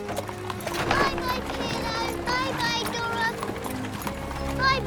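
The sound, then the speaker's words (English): Hooves of a horse pulling a cart clop along steadily as the cart trundles away, with a continuous rolling rumble beneath and tonal sounds mixed in. “He trundles away on his cart.”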